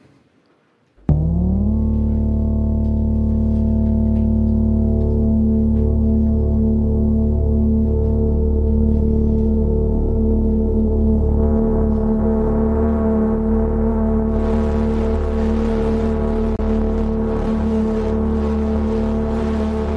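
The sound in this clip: A chaotic five-voice Katla synthesizer running NixOS starts abruptly with a loud, sustained drone of stacked steady tones. The drone holds for a long stretch, and a hissy, noisier layer joins it near the end.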